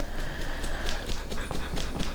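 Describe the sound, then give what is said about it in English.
A big dog scratching itself: a rapid, even run of scratchy, thumping strokes that repeats steadily from start to finish. “we're going to wait till the big dog finishes his scratching here.”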